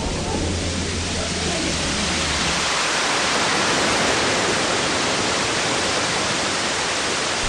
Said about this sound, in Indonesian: Kita dah sampai kat pantai dah ni.